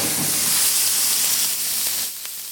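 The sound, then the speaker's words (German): Salted wagyu steak searing in a hot pan, pressed flat under an iron steak weight, gives a loud, steady hissing sizzle that drops slightly in level near the end. “Jetzt habe ich es gerade nochmal beschwert mit so einem Beschwereisen, einfach um eine gleichmäßigere Karamellisierung auf dem Fleisch hinzubekommen.”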